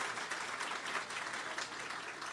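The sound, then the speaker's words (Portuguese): Applause from an audience at an official gathering in Brazil where former ministers and governors are being greeted: dense, steady clapping that holds at an even loudness throughout, with no voices standing out. “Salva de palmas”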